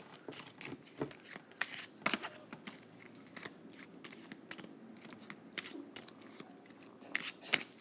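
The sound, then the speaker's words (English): Playing cards are shuffled, producing many faint, crisp riffling clicks and flutters in irregular bursts, quiet throughout. “Okay, I'll shuffle for you.”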